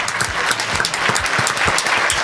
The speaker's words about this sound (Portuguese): Por favor, palmas para Alexandre de Moraes. Palmas.